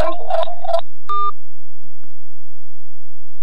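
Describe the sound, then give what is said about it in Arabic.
A short electronic telephone tone sounds after a radio call-in line is cut off, following a brief voice, and then the line falls almost silent. “نعم انقطع الاتصال.”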